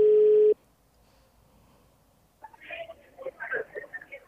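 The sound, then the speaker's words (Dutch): A single steady ringback tone from an outgoing phone call lasts about half a second and stops. After a quiet pause, a voice answers over the line. “Als je nu niet opneemt, dan. want ja, voor alle duidelijkheid, we zijn met uw nummer aan het bellen, want de mijne werkte niet.”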